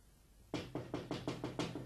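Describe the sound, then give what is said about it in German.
Knocking on a window: a quick series of sharp, bright raps in a fairly even rhythm, loud against a low, steady background hum. “Es klopft ans Fenster.”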